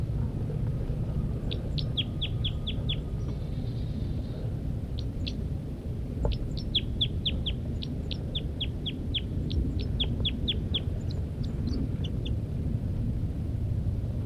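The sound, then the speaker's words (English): A female bird gives flight calls from her nest: many short, high, sharp chirps in quick bursts and runs, separated by brief pauses, over a steady low background hum. “The female continues to give flight calls from the nest.”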